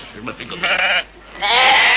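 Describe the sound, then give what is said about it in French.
Sheep bleating as a flock invades a gendarmerie: a few loud, wavering, fairly high bleats, overlapping, with a short lull between them. “Qu'est-ce que c'est que tout ce bruit? C'est terrible! Une arrivée de moutons envahit la gendarmerie, il y en a partout!”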